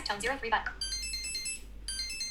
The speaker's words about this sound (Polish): Stara komórka. O, tu taki piszczący.